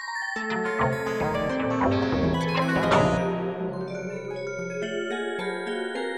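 An electronic music piece of dense layered synthesized tones. Sustained, harmonically rich chords shift and overlap, with short bright notes entering and fading at a steady, moderate level, and no voices.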